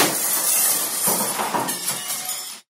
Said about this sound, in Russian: Огромное стекло с громким звоном лопнуло и осыпалось